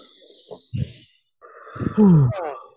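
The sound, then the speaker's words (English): A deep breath taken in and let out: soft, breathy inhales and exhales that end in a loud voiced sigh falling in pitch. “I'm going to take a deep breath. Okay, should we both do that together?”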